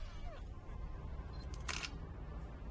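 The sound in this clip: A phone camera's shutter snaps as photos are taken of a photo album: a brief, bright click over a low, steady background hum.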